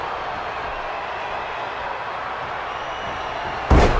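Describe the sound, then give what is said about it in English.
Wrestling scoop slam onto the mat during a wrestling match: a single sharp, heavy thud near the end after several seconds of steady background noise. “Henry Godwin now has Gangrel and hits him with a huge scoop slam”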